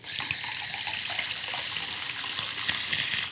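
Water poured into a large glass: a steady, continuous splashing rush of liquid, fairly soft and even throughout, with no talk.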